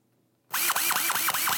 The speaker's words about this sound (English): Screwdriver.